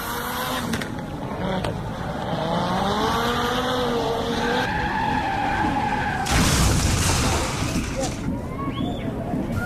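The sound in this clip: A rally car speeds past a bend with its engine revving up and down and tyres skidding loudly. A sharp burst of noise from the crash follows, with voices heard under the racket.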